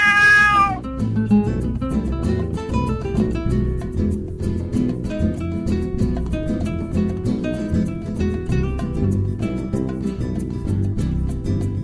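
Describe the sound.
A cat meows with a bright, harmonic cry at the very start, followed by a long stretch of dense, steady tonal sound.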